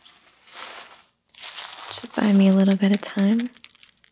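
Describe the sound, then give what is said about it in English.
Baby rattle being chewed and shaken, giving two soft bursts of crinkly rattling, followed by a voice. “Oh, are you eating the rattle? Is that a yummy rattle?”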